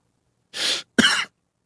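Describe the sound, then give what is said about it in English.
A person with a lingering cough lets out two short, harsh bursts, a breathy one followed quickly by a sharper, more forceful one, heard alone against silence. “You still got this cough. I told you not to cough earlier, and here you are.”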